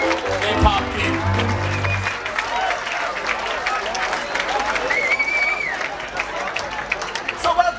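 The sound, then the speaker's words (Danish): Crowd atmosphere inside a festival tent: steady applause and clapping mixed with the babble of many voices, loud and continuous throughout. “Jeg ved, du har lavet lidt stemning derfra, du lige tog med på bånd. Det synes jeg lige, vi skal prøve at høre, så kan man lige fornemme, hvordan det var i teltet der.”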